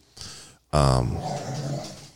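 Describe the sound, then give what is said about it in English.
Puppies fighting: a short scuffle, then a sudden loud yelp that gives way to rough growling and whimpering yips. “we got puppy fight. Going.”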